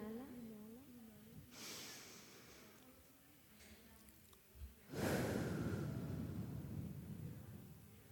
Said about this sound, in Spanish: Respira un par de veces para que te pongas presente. Inhala.